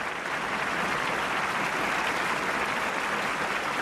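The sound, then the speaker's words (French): An audience in a theater stands and applauds at a film's world premiere, a dense, continuous wash of clapping that holds at a steady level throughout with no voices standing out. “On a des frissons. Tous ces applaudissements.”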